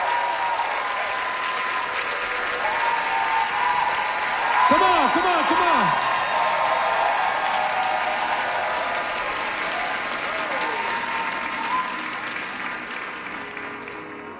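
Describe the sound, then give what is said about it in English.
A concert audience at the Chan Centre for the Performing Arts in Vancouver cheers and applauds, a dense, sustained wash of clapping that swells midway and slowly fades, while a performer shouts encouragement over it. “Come on, Vancouver, make some noise!”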